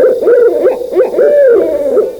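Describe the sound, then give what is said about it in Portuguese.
A large owl hoots in a loud, rapid series of short, wavering notes that rise and fall in pitch, calling alone with no talk. “Olha ela aí, chegou adiantada, não é hoje não, dona coruja, volta amanhã.”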